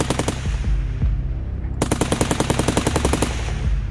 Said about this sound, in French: L'un des 2 individus se retourne rapidement avec un pistolet mitrailleur et commence à arroser les 2 policiers.